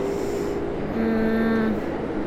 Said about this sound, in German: Jetzt fährt ja auch noch die Bahn.